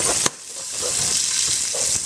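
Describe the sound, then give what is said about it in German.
Sugar, about two teaspoons, melting and caramelizing in a pan for a duck stock and orange juice sauce gives a steady, dense sizzle throughout, broken once near the start by a single sharp clack. “karamellisiere ich das mit etwas Zucker. Warte, bis der schmilzt.”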